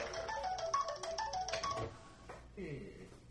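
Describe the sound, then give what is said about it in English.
A mobile phone rings with an incoming call, a repeating bright melodic tone pattern playing for a couple of seconds before it stops, with people talking over and after it. “Is that a text tone or a call? A call. I'm not answering.”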